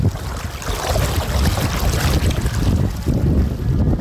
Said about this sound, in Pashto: خو تاسو به دغه د اوبو غږ اورئ زه ورنږدې کېږم